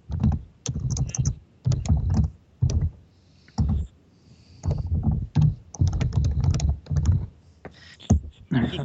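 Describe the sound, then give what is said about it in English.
Heavy-handed typing on a computer keyboard: loud clusters of hard key clicks come in quick bursts, separated by short pauses, with an uneven rhythm throughout. “Somebody has very heavy hands on their keyboard.”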